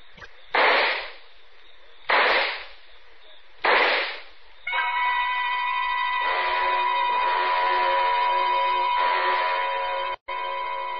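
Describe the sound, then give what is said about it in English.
Handgun shots crack out as three sharp, evenly spaced bangs that each decay quickly. A sustained, ringing tonal drone then takes over and holds to the end. “took out the gun, aimed very carefully at a spot just in the center of his left shoulder blade, and pulled the trigger four times.”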